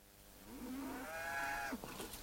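A cow on a farm lets out one drawn-out moo that climbs in pitch, then holds and breaks off. The call is fairly faint, alone over a low, quiet background.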